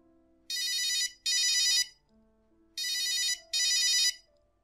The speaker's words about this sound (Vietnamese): Trên bàn có một chiếc điện thoại đen trắng là chiếc Nokia 1110i.